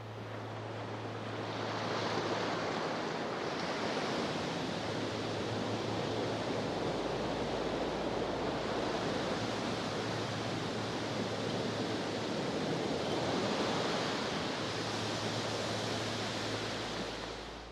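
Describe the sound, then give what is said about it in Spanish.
Sea waves roll in as a broad, steady rushing roar of surf, swelling and easing gently across the long stretch with no voices. “«Es el mar», exclamó el viento, «donde podrás refrescarte y jugar infinitamente entre las olas.”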